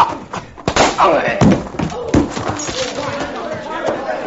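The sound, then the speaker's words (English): A punch to the jaw in a radio drama fistfight, heard as a few heavy, dull thumps and smacks landing between spoken lines. “Hit him in the jaw again, Chad. I can use those gold teeth.”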